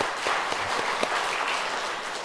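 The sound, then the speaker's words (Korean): Applause from a church audience after a group recitation of the Ten Commandments: a dense, steady wash of many hands clapping at an even level for the whole stretch, with a few sharper claps poking out. “서로 박수 한번 하겠습니다.”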